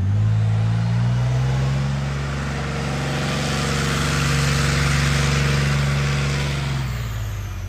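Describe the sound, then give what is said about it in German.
Deep diesel engine of an armoured recovery vehicle, demonstrated at a military training ground, drones loud and steady with a heavy low rumble and layered harmonic whine, easing slightly in the middle and dropping off at the very end. “So, und hier wird es jetzt wieder laut und es riecht nach Diesel. Das heißt, hier wird jetzt schweres Gerät vorgeführt. Die Heeresinstandsetzungslogistik, kurz HIL, hat hier gerade eine Vorführung und zwar vom sogenannten Bergepanzer.”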